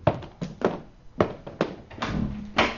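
A door is opened in a radio drama, heard as a series of heavy, hollow thuds and clunks in an uneven rhythm, with no talking over them.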